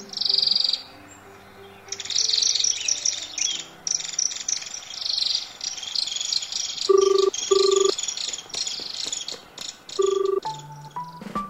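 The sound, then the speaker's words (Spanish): Birds with green and red plumage that nest in tree hollows chirp in dense, high, rapid trills, with a few short, steady beeping tones breaking in toward the end. “Hay unas aves en mi casa.”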